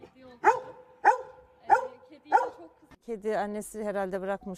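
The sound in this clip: A golden retriever guarding a kitten barks four sharp, evenly spaced times. A person then starts talking.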